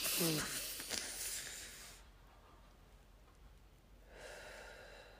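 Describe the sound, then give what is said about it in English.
A deep breath drawn in produces a soft, airy hiss for about two seconds. Near silence follows, then a fainter breathy rush returns at the end. “You take a deep breath to calm down. Do one now.”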